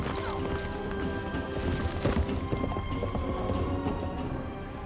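Hooves of horses and a camel, ridden across a desert landscape past ancient ruins, make many steady clopping beats at a moderate level throughout.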